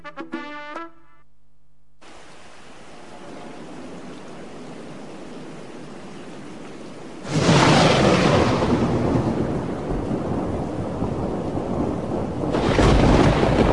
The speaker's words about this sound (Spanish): No era la primera vez que había tormenta